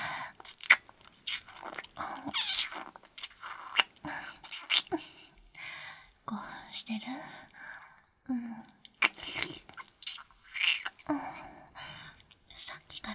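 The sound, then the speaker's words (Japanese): Kissing, with soft wet lip smacks and mouth sounds repeated in many quiet bursts, mixed with breathy whispering and breaths between them. “息が甘くて美味しいんだもの、このキュス。”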